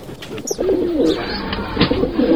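A bird coos in low, soft, repeated calls as it is shooed gently off its nest of two week-old chicks, over a steady background hiss.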